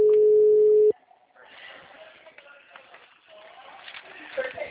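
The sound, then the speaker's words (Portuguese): An outgoing phone call's ringback tone: one steady, low, loud beep of about a second that cuts off abruptly, followed by faint talking. “Ah, eu vou ligar pra. Tá chamando já.”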